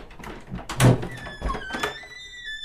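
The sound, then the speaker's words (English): A vehicle door opened by turning a doorknob: a couple of dull, heavy thunks a moment apart, followed by faint, lingering high ringing tones. “We didn't use a laser torch. What'd you do? We turned this doorknob.”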